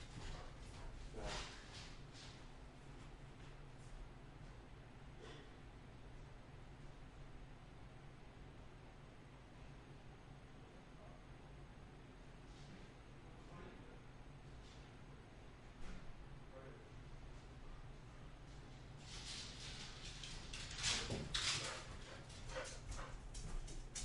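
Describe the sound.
A dog barking after the doorbell rang, with faint, scattered yips and whimpers early on, then a denser burst of barking near the end, all under a steady background hiss.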